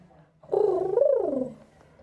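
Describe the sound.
A human voice imitates a pigeon's coo, giving one soft, warbling call that wavers up and then down before fading.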